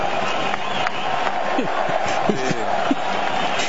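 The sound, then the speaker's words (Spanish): A stadium crowd cheers in the stands at a football match between Ecuador and Ivory Coast. A continuous loud roar of many voices runs throughout, with talk over it. “El público empuja en la tribuna.”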